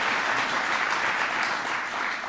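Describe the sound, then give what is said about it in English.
Audience applause for a newly named president during an acknowledgments speech, a continuous even wash of many hands clapping at steady loudness, with no voices over it. “Congratulations. Give Elizabeth a big round of applause.”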